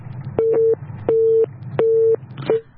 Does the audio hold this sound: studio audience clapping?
no